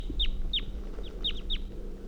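A female bird calls near her nest on a hillside, giving a quick series of short, high, down-slurred chirps in loose pairs. The calls are clear above a low, steady background hum.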